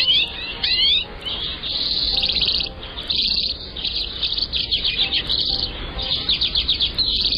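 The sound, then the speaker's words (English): Calls of the common redpoll (Acanthis flammea): many rapid, high, buzzy chirps and trilled notes repeated in quick runs, fairly loud over a steady background hiss. “Talkin' Birds featured feathered friend, Acanthus flammea, the common redpole.”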